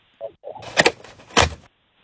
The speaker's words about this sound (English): What is a secret sound? Opening a screen window on your house windows.